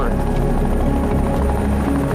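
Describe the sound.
Aircraft engine droning steadily during takeoff and climb over a karst peak forest, a loud, continuous, rough roar with no breaks.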